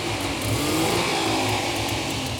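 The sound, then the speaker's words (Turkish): Car engine revving as the accelerator is pressed, in a car with an old, worn battery and a weak charging system, headlights switched on; a loud, steady mid-pitched drone with rumbling low harmonics that holds throughout. “Şimdi gaza tekrar basarsak...”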